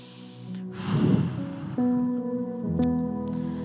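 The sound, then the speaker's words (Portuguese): One person breathes in slowly and deeply during a guided prayer, a long airy inhale that swells and then fades. Soft, sustained musical tones continue underneath and afterward. “Dá uma respirada bem profunda, assim, ó. Respira o Espírito Santo. Respira bem fundo, mais uma vez.”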